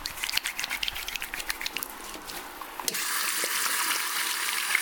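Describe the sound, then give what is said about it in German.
Hands are washed under a running tap: irregular splashing and patting for about three seconds, then a steady, even rush of water to the end. Fairly quiet throughout. “Richtig, wir waschen uns die Hände.”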